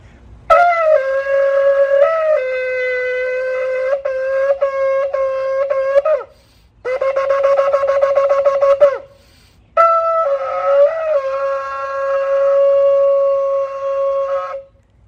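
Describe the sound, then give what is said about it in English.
A ram's-horn shofar is blown for Rosh Hashanah in three bright, brassy sequences split by short silences. They move from held notes with breaks in pitch, to a rapid staccato burst, to a long sustained blast. “Well, that is the sound of the shofar.”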